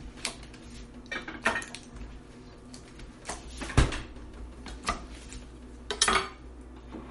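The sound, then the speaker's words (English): A knife slices food into small cubes on a cutting board, giving a few sharp, separate knocks and taps spaced irregularly, with no talking. “So slice down, turn it over, slice down again, and then slice crossways.”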